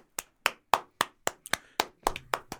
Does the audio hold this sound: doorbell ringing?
no